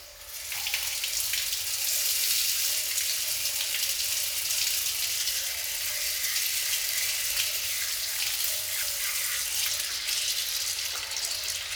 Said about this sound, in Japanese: 流しますよ。